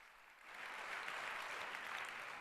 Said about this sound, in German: Und jetzt bitte Applaus für ihn.